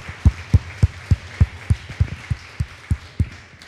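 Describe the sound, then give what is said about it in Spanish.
An audience in a Spanish-language church service claps in rhythm, with many loud unison claps at a steady, even beat throughout. “Denle un fuerte aplauso al que merece toda gloria y honra.”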